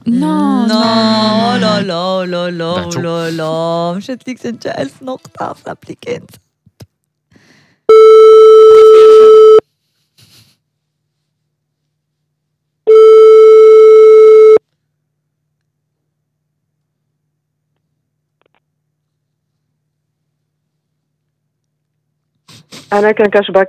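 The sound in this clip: A telephone ringback tone on a phone call: two long, steady buzzing tones separated by silence. Voices talk before the tones and return at the end.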